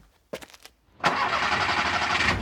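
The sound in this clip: A car engine cranks with a few quick starter pulses, then catches after about a second and settles into a steady, loud running idle that lasts to the end.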